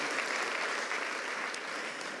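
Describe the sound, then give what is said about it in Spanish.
Steady applause during a church worship service, a dense, even wash of clapping hands that holds at an unchanging, fairly quiet level throughout, with no voices over it. “Aplauso de adoración al Señor.”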